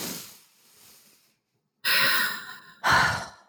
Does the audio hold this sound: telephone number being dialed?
no

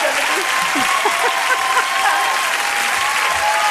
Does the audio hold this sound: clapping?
yes

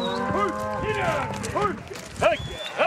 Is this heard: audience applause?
no

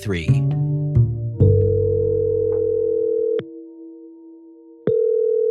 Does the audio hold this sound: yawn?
no

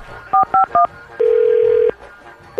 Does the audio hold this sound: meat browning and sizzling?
no

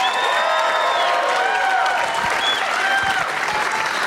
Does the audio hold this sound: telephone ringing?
no

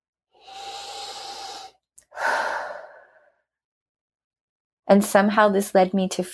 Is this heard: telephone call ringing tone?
no

